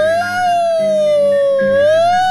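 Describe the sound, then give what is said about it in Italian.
A siren wails alone and loudly, a steady tone that dips slightly and then rises again toward the end. “sirena questa.”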